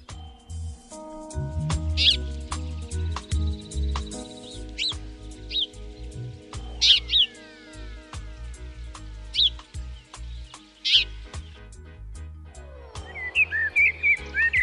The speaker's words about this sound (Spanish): hemos escuchado la golondrina, ahora escuchamos al gorrión común.